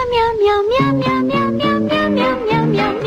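Loud, continuous meow-like cat tones rise and fall over a stepped melodic backing, with several notes in a row and no pauses.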